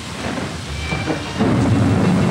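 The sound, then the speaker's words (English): Rain and thunder of a tropical cyclone: a steady, loud hiss of hard rain over a deep rolling rumble of thunder that swells and thickens in the second half. “Then the wind increases. The rain begins, small and hard.”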